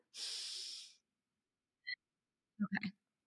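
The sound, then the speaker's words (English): One long, airy breath lasts just under a second. A short silence follows, then a brief click and a short burst of throaty, snorting mouth noise. “let's breathe in and out, in alignment,”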